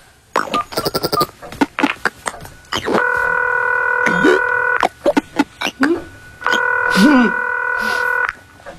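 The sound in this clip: Telephone tones during a call to a family member: two long, steady, stacked electronic tones of about two seconds each, with people talking before them, between them and partly over them.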